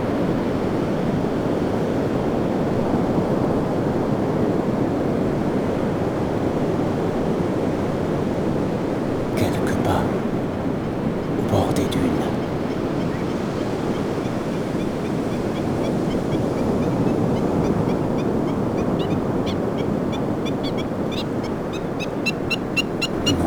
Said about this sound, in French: face à cette masse d'eau titanesque, que je vous laisse.